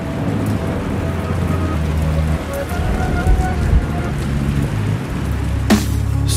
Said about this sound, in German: Da hilft nur Unterschlupf suchen und sich gemütlich zusammenrollen, während draußen das Sauwetter aufs Dach prasselt.